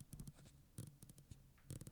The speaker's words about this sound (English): you have the FXZ, I'm holding it right now. I love the click, and I'm going to try to make it sound on to the mic.